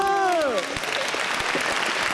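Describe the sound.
Applause breaks out as a family praises a child's bear-themed train dish, a dense, steady crackle of clapping that follows a brief voice at the start and continues to the end.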